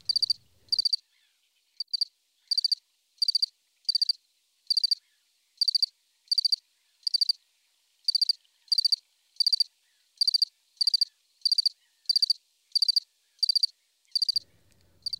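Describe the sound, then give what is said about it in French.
A little cricket chirps in short, high, bright bursts repeated many times at a steady rhythm, each chirp a quick trill, with brief gaps between them and no other sound. “Le petit grillon aussi se remit à chanter.”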